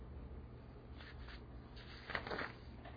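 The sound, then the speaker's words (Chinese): Writing is erased from a board in several short rubbing strokes, a faint dry swishing that comes in a few bursts. “好，我把这个擦掉，来，好，我把这个擦掉”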